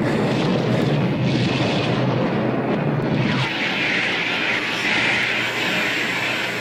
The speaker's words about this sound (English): Ooh, that was a fancy one. A little cursive missile.